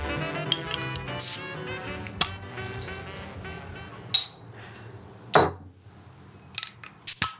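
A beer bottle is opened with a bottle opener: a few sharp glassy and metallic clinks separated by quiet pauses, with one broader burst midway and quick clinks at the end, and no talk.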